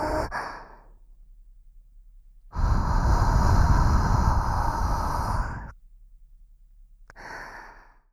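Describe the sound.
A deep breath in and out: a long, loud, breathy rush lasting about three seconds in the middle, with shorter, quieter breath sounds at the start and end.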